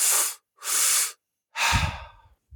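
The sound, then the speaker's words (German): A person breathes in and out through the mouth in three airy, rushing breaths separated by short silences. The last breath is longer and trails off into a low, rough tail. “Anhören tut sich das ungefähr so. Ich atme jetzt durch den Mund ein und aus”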